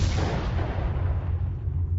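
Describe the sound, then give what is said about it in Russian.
A distant explosion as a tripwire booby trap left by a door goes off: one broad, dull blast with a deep rumble that slowly fades over about two seconds. “И почти сразу прозвучал далекий взрыв. Сработала первая растяжка, оставленная нами у двери.”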